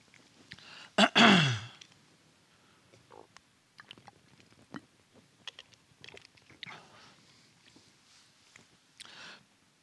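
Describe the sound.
A throat clearing from someone with something stuck in the throat: one loud, harsh burst early on, then a quiet stretch with faint, scattered mouth and breath noises.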